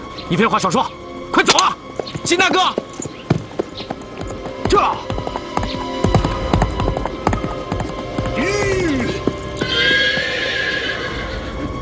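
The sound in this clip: Horses neigh and whinny over galloping, clip-clopping hooves during a mounted chase, with several loud whinnies early on and steady hoofbeats throughout. People talk over the animals.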